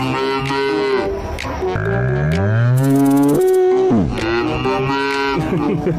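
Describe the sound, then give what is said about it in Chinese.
A calf moos repeatedly on the Inner Mongolian grassland, calling for its mother: a few loud, drawn-out harmonic bellows, one of them rising in pitch, with short pauses between calls and no talk. “这是内蒙古草原的一头小牛，一路呼唤妈妈，太治愈了。原来小牛也这样叫妈妈。”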